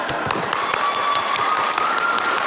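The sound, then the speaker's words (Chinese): Steady applause from a crowd, dense continuous clapping from start to finish with no clear breaks and an even loudness throughout. “给于氏鼓鼓掌”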